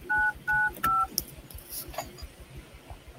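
Telephone keypad dialing tones: three clear, evenly spaced two-note beeps in quick succession, followed by faint background hiss.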